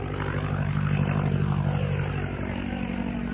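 A vintage propeller airplane with an OX5 engine of about 85 to 90 horsepower flies overhead, giving a loud, steady, continuous engine drone with a rough low throb and no voices.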